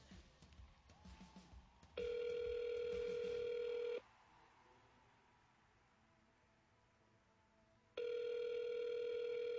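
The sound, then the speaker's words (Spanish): A telephone ringback tone plays while a call to a radio station waits for an answer: two long, steady, faint tones, each lasting about two seconds and separated by a roughly four-second quiet gap, after some faint noise at the start. “Nunca le va a sonar ocupado. Esperando a que nos contesten en Radio Lluvia.”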